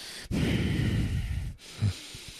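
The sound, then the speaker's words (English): A voice imitating heavy, annoying breathing: one long, noisy, rasping breath, then a brief pause and a shorter, huffing breath. “He was breathing like Tony Soprano.”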